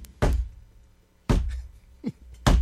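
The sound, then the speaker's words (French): Three heavy, low wooden thuds of a stick striking the floor announce the start of a theatre show. The knocks are spaced at roughly one-second intervals, each a dull, booming hit with a short decay, and no voices are heard. “Des trois coups de bâton, ça prend ça.”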